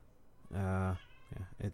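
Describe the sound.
Pet cats meowing: one drawn-out, harmonic-rich meow followed by two shorter, clipped meows, all fairly quiet.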